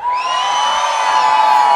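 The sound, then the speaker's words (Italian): A crowd lets out a sustained, loud, high-pitched yell on a countdown cue during a voice-volume contest, holding steady throughout. “Adesso proviamo a fare un urlo. Un urlo al mio 3, 1, 2, 3.”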